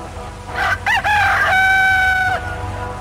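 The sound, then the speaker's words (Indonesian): A rooster crows at dawn: a single loud crow of a few short stepped notes, then one long held high tone that cuts off sharply, heard alone over a faint low background hum. “Saat kokok ayam jantan terdengar membelah subuh yang bisu”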